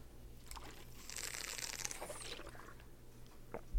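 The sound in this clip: A person takes a drink from a beverage container during a pause in talk about basketball: a few seconds of crinkling, crunchy handling noise with soft gulping, moderately loud and alone, ending in a short thump.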